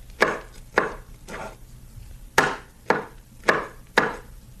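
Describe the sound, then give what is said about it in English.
A knife chopping fruit or vegetables on a cutting board: seven crisp, sharp chops in an uneven rhythm, with a longer pause midway, sounding alone with no talk. “That's chopping fruit or vegetables on a cutting board.”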